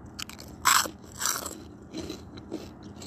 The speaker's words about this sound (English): I'm eating a mixed pork rinds barbecue flavored.